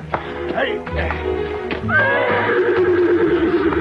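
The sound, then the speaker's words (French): Horses neighing: a shrill, wavering whinny rises over clopping hooves, with people talking throughout. “Non, prince, c'est impossible. Nos chevaux ne pourront jamais monter.”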